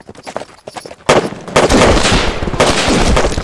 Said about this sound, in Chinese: 再不站住，老子开枪了啊